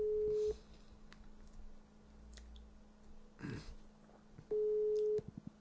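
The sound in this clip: Ringback tone sounds while a phone call is being placed: two steady, mid-pitched buzzing bursts, one at the start and one near the end. A few seconds of faint background noise separate them, with light clicks after the second burst.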